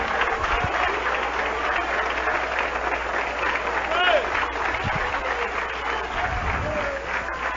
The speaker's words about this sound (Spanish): ¡Que le aplauso a Cristo, que se merece!